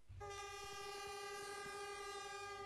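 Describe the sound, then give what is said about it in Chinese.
Horn of a departing China-Europe freight train loaded with small goods, leaving a freight station in Yiwu: one long, steady, unbroken blast over the low rumble and clatter of the rolling train. “随着汽笛一声长鸣，满载义乌小商品的中欧班列缓缓开出了义乌货运西站。”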